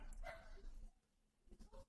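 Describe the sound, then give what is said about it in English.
Faint dog barks from household dogs: a few short woofs and yips with a soft whimper, quiet and scattered across a brief moment. “Excuse my dogs.”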